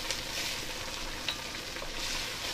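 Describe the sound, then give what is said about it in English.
Food sautéing and sizzling in a pot gives off a steady, dense hiss of frying that runs throughout at an even level, with no voices heard. “Give that a good stir. Here we go. That sounds so good. It sounds so great. Right. Sautéing.”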